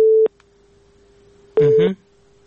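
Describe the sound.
A telephone busy signal sounds after a dropped call: two short, steady mid-pitched tone bursts separated by a pause, with a faint continuous hum underneath.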